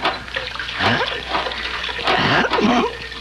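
Water gushing from a hand pump being worked so someone can wash their hands and face, coming in a few uneven splashing bursts.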